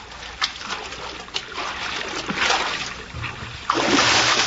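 A man swimming, his strokes making irregular splashes and trickling water, with a few sharper slaps and a heavier, louder surge of splashing near the end.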